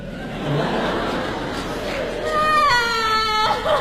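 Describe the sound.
A child crying in a staged comic scene after a schoolyard fight, a wavering, high wail that swells near the end while other voices talk around it.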